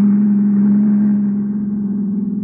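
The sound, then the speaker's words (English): A car engine drones in a steady mid-pitched hum as it pulls alongside and drives past during a road chase, holding loud and even before easing slightly in the final second. “He drove right past us.”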